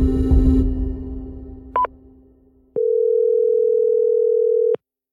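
A telephone call tone follows a burst of louder noise at the start: a short double beep, then a steady, clear tone holding for about two seconds before cutting off.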